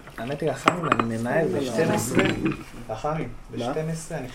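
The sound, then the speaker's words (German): Clinking and scraping of a metal pan and utensils as coffee beans are roasted in a kitchen, part of a traditional Ethiopian coffee ceremony. Quick metallic rattles continue under voices talking. “Sie röstet Kaffeebohnen.”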